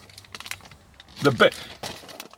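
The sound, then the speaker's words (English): Crinkling of a Luden's blue raspberry cough drop wrapper as it is unwrapped. A few sharp, crackly plastic bursts stand out, the loudest clustered near the middle, with softer rustles around them. “Ludens are like candy. You can hear him unwrapping it, can't you? I can.”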